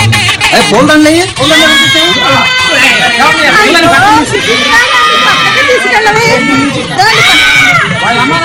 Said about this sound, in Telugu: అయ్యో పిల్లలు అవి ఏడుస్తుంది కదా, పక్కన తీసుకెళ్ళవి.